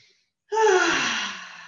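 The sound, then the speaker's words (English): One long, deep breath from a person standing with eyes closed during a relaxation exercise. It is breathy and fairly loud, rising abruptly after a short silence and then slowly fading. “just close your eyes for a minute and take a few deep breaths.”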